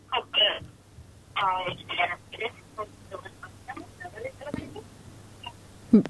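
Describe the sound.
Telephone dialing tones as a radio call-in host places a call to a new caller, short bursts of electronic tones mixed in among voices talking.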